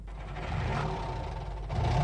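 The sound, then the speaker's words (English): Car engine rumbling while driving, used as a radio show sound effect: a steady, low, fairly quiet hum that grows a little louder toward the end. “Buckle up, trippers. It's time to drive.”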